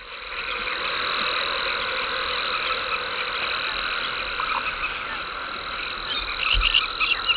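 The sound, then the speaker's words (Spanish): A rare cricket called the silver rattle stridulates in arid, salty, salt-whitened land, giving a continuous high, clean, steady trill that holds at an even loudness throughout. “un grillo que canta, es muy escaso, que canta estridula. En las tierras más áridas, salobres, blancas de sal, y que lleva paradójicamente el nombre de cascabel de plata.”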